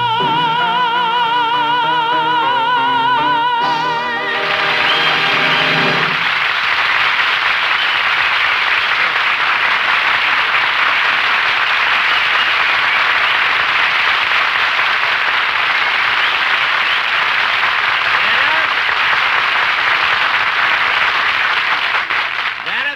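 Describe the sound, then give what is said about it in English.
Audience applause. A dense, steady roar of clapping rises out of a brief tonal musical ending and carries on evenly for about twenty seconds. “and it's applause because you're”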